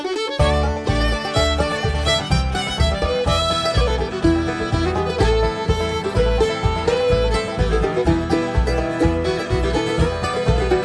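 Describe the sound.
Bluegrass tune played on guitar, fiddle, mandolin, bass and banjo, with a bright instrumental lead over a steady, driving bass beat, moderately loud and without vocals.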